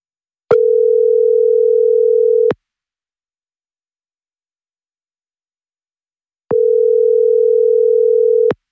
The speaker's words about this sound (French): Allez, ça sonne.